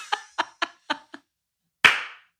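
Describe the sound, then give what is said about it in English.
Hand claps: five quick, sharp claps in an uneven rhythm, then a short pause and one louder clap with a longer fading tail, heard alone without any talk. “Sorry, I didn't mean to clap.”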